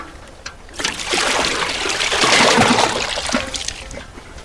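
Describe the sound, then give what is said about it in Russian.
Splashing and sloshing water as a carp is released into a bathtub of water standing in a yard; the splashing swells after the first second, peaks near the middle and then gradually trails off. “Олег выпускает карпа в ванну с водой.”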